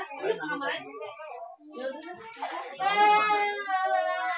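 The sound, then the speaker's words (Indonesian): A baby crying among children at play, with child voices talking in short bursts before a sustained high wailing cry takes over for the last second and a half. “dedenya nangis. Dede nangis.”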